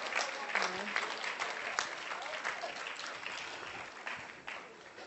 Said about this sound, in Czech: Zatleskáme všichni, děkuju.